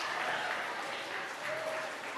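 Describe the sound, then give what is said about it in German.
Audience applause for five silver medal winners at an award ceremony, a steady, dense wash of clapping that stays soft and even throughout, with no voices. “Einen heftigen Applaus für die fünf Silbergewinner.”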